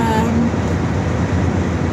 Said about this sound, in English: So we're driving along the road on one of our many day trips.